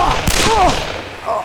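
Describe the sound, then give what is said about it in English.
A few sharp, loud gunshots from a Colt revolver fire in quick succession, with brief crackling bursts close together near the start. “He landed on his shoulder and rolled, then came up on one knee with the Colt roaring again.”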